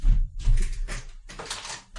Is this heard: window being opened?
yes

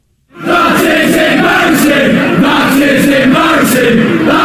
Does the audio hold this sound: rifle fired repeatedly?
no

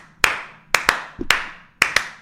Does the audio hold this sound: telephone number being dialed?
no

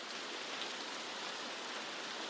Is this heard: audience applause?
no

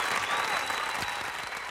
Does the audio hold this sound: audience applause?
yes

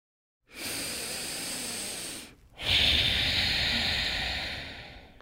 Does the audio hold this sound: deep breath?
yes

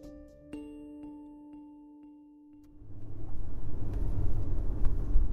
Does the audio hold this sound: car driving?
yes

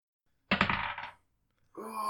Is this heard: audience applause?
no

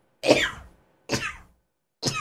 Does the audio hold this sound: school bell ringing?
no

